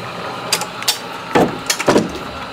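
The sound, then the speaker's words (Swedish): Printing press mechanism sliding back into place: a few sharp wooden and metallic clacks and ratcheting clunks in uneven rhythm, loud against a quiet background. “Så åker den tillbaka igen. Så får man mata pressen med, med varje trycka, varje gång man trycker klämmer man fast det.”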